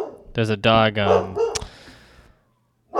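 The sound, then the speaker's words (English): A pet dog barks a few times in quick succession, loud, sharp and harmonic, followed by a brief thud and then quiet. “We got to pause. There's a dog”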